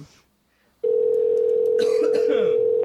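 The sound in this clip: An outgoing telephone call rings unanswered: after a short silence, one steady, unbroken ringback tone lasts about two seconds, with faint voice sounds over its later part.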